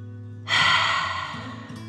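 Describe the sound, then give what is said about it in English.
One deep, breathy exhale during a guided dragon-breath exercise, where air is pushed out as if breathing fire. It starts suddenly after a short pause and gradually fades away. “Deep breath in and out.”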